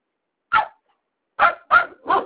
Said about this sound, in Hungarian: Mi ugatnak ezek ennyire?